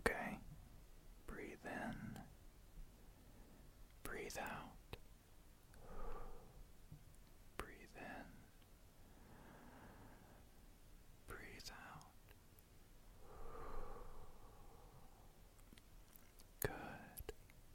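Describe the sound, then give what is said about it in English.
Slow, calming breaths in a soft-spoken caring role-play: gentle, faint inhales and exhales recur every few seconds in an unhurried rhythm, with soft breathy voicing between them. “Here, breathe with me.”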